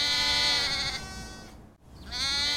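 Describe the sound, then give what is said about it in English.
Lambs bleating in a paddock: one long, wavering, nasal bleat rich in overtones, then a short gap before another bleat begins. “Annabelle and William walked out to the paddock where the lambs were already waiting for them.”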